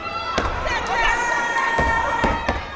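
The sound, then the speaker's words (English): Claps and stomps at a university step show at WVSU: a few sharp, irregularly spaced percussive hits over sustained voices. “this is a step show. It's got clapping. Stomping”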